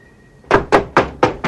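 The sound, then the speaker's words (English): Five firm, evenly spaced knocks on a door, each a dull thud with a brief bright edge, sounding alone in quick succession. “Crutchy knocks on Snyder's door and goes in.”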